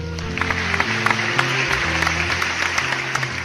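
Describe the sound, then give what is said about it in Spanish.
An audience applauds with dense, sustained clapping and crowd noise that stays at an even level, over background music with low, held notes. “Fuerte el aplauso para el señor Andrés”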